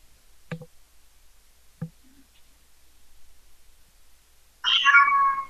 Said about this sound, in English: It's the cat was making a loud noise.